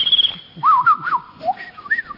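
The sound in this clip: A person whistles to birds in short, clear phrases of sliding, warbling tones that rise and fall in pitch, fairly loud and separated by brief gaps.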